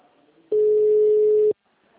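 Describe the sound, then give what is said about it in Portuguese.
A single steady electronic telephone tone sounds for about a second during a call after the other party put it on hold. It starts and stops abruptly over faint background noise. “Ai, ela colocou na espera.”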